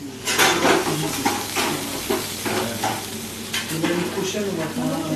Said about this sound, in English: squeezes out small blobs of pale yellow viscous liquid, each about the size of a fried egg, onto a hot grill.